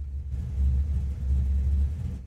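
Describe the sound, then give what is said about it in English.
A car rumbles in an old movie scene, a low, steady engine drone that swells slightly and holds for about two seconds, with no music or talk. “See how you can kind of hear the car?”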